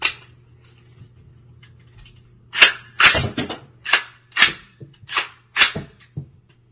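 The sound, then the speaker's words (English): Cartridges being flipped out of a rifle make a series of sharp metallic clacks, several in fairly quick succession with uneven gaps. A faint steady hum runs beneath them. “while you're flipping them bullets out of that rifle”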